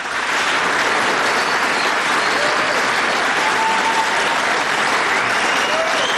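Sustained applause from a large audience: a dense, steady roar of clapping that stays at an even, loud level for the whole stretch without any break.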